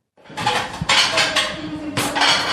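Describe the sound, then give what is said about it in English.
Clattering dishes, pots and cutlery during the cleanup after a group cooking class for NDIS participants: a steady run of clinks and scrapes with a few louder knocks, and no talking. “It's the cleanup after a group activity cooking class for NDIS participants.”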